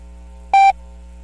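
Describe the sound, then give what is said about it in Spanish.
A single short, steady electronic beep sounds: the official national time signal tone of Ecuador, broadcast on radio by the navy's oceanographic institute. It is clear and level-pitched over a faint low hum. “Al oír el tono serán las 11 horas.”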